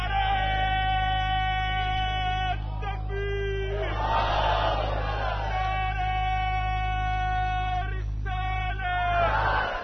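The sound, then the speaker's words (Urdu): A crowd at a religious sermon shouts a slogan. A leading voice calls out in long drawn tones over a steady low hum, and the crowd answers with loud roaring bursts, one midway and another at the close. “ایک نعرہ لگاؤ زور سے،”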